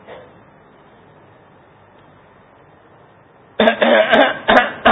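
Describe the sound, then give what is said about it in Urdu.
Harsh coughing from a person with a persistent cough and a hoarse voice. A quiet lull comes first, then a few loud, rough coughs burst out close together at the end. “آج کل کھانسی ہو رہی ہے اور ٹھا ٹھا کر کے وہ نقارے بجا رہا ہے, پھر کٹ کٹ کے بول کھانسی ہو رہی ہے. اب یہ نہ بھی بولتا تو یہ کھانسنا اس کا خود بتا رہا”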